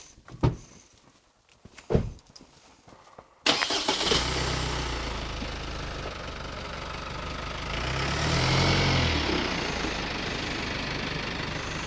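A car engine starts after a few sharp knocks and clicks, catches suddenly and settles into a steady idle. The engine sound swells slightly partway through, with no voices.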